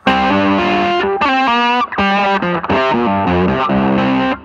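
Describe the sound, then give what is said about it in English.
Electric guitar played through a Maxon SD9 distortion pedal, with loud, overdriven notes and chords that move up and down in a continuous melodic phrase, heard alone. “my dry sound is essentially just this Maxon SD9, which I love. Let's hear that.”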